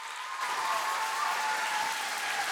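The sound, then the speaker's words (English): A church audience claps steadily to welcome a pastor onto the stage, a dense, even wash of many hands applauding without a break throughout. “as I ask you one more time to put your hands together and give the biggest warm Rev City welcome to Pastor Richard”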